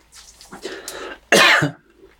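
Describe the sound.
A person coughs after choking on a throat lozenge: soft, raspy breathing and throat sounds lead into one loud, harsh cough burst, followed by a quieter catch of breath.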